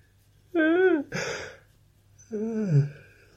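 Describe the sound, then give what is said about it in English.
A man's drawn-out yawn: a strained, wavering voiced tone, then a breathy rush, and after a short pause a second squeaky, warbling cry that sounds much like a distressed seagull. “God, that yawn sounded like a seagull in distress.”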